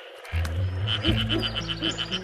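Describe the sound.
A frog calls with its vocal pouch puffed out while yellow frogs swim in a pool at mating time. The call is a rapid, rhythmic series of many short, fairly loud pulses over a low, steady hum.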